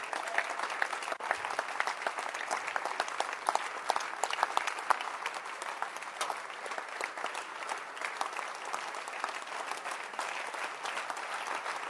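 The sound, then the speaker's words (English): Sustained audience clapping as a leader is hailed as man of the year at a gathering: a dense, steady patter of many hands that continues without a break and with no voices standing out. “Keep clapping, baby.”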